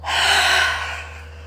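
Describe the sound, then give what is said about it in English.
A single deep breath drawn in and sighed out, as in a relaxation breathing exercise, loud and airy with a long hissing inhale that softens into a fading exhale, heard alone. “Inhale. Exhale.”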